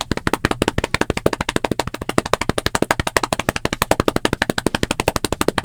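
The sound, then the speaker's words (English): Improvised drum roll performed by one person, a rapid, even stream of many sharp percussive slaps at steady loudness, with no talk. “So can I get a drum roll from my imaginary audience who's not here? I'll give one myself.”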